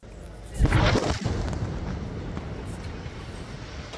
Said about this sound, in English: A separate Israeli strike targeted a house in Al-Nusirat camp in central Gaza. This video shows the moment the home was destroyed, followed by thick dust spreading across the city's market.